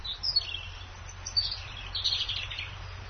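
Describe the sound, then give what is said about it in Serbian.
A European robin sings on its territory while a great tit calls in the distance. High, thin chirps and trills come in short, irregular phrases over a soft low background. “Ne, ovo je crvendaće, u daljini se čuje senica, tako da svaka u stvari na svom jeziku, na svojoj vrsti nešto želi da kaže”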